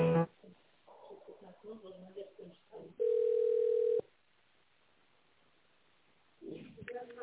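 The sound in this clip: A single steady telephone line tone of about one second while an office call is transferred, heard alone between stretches of muffled phone-line talk.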